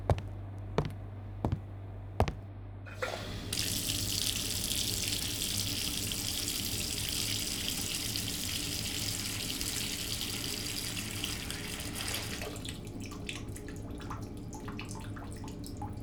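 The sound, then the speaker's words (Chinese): Bath water running from a tap: a few sharp clicks come first, then a loud, steady rushing stream starts and continues to the end, thinning slightly in the final seconds. “洗澡水已经放好了，现在可以去洗漱了。”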